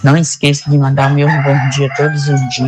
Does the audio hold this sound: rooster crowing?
yes